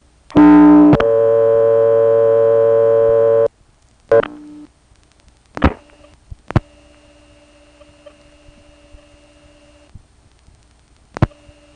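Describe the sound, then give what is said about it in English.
Telephone call dialed through a trunk line to a 472 number in Hague, Virginia: a loud, buzzy harmonic tone lasting about three seconds, a short tone burst, then three sharp clicks with a faint steady tone between them. “so let's try calling the Hague recording again, this time getting that last trunk again, and I'll dial a complete 472 number this time instead of 47001.”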